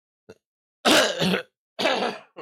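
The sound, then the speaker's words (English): Coughing, with harsh throat-clearing bursts: a tiny catch, then a loud double cough, a pause, and another strong cough, with one more starting at the end. Short silences separate the bursts, and no one speaks. “Sorry, I wanted to cough, but I saw that my cough button was not activated.”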